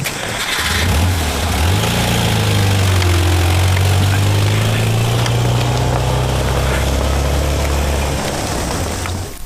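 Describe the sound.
A car engine starts after about a second, its low hum rising quickly and then settling into a loud, steady drone as the car drives off, easing slightly near the end.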